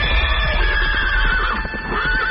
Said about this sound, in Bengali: বেশ কয়েকদিন ঘোড়া ছুটিয়ে নগর প্রান্তর পেরিয়ে এলাম আমরা।